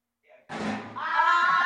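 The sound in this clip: A hand knocking into a big chair gives a single dull thud, followed right away by a voice crying out.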